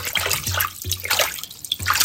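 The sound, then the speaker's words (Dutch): Hot water pours from a tap into a filling bath, a steady, fairly loud rushing splash that runs unbroken throughout, with a few soft low thumps beneath it. “Kraan open. Kom aan, nog wat heet water erbij. Voilà, nog wat schuim.”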